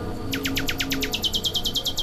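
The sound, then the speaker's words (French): A nightingale sings a rapid, evenly spaced run of many short, bright, high chirps, each sliding downward in pitch, with a slight change of note partway through the series. “Le rossignol Philomène.”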